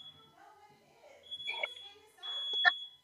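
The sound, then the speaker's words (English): A fire alarm sounds in a house as a steady, piercing high electronic tone that holds through the whole stretch, while people talk over it. “That's a fire alarm.”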